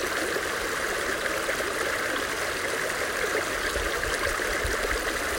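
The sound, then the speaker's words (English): Flowing water of a stream in a nature setting: faint, continuous rushing and trickling with a steady, even texture and no voices. “Enjoy your time listening to the sounds of nature, visualizing the birds, the trees, the water,”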